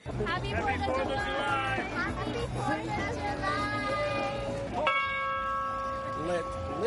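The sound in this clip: A bell rings for Independence Day, July 4, in South Riding, Virginia, with several resonant strikes and long humming tones over the steady chatter of a gathered crowd, children's voices among them.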